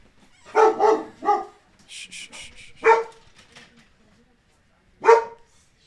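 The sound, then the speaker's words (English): A dog barks several times in short bursts. A quick cluster of barks comes first, then single barks follow after pauses, each loud and sharp. “that's our dog.”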